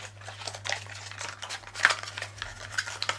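Cutting through tightly bound packaging held with tabs: a faint run of scraping, crinkling rustles and sharp little clicks, irregular in rhythm, over a steady low hum.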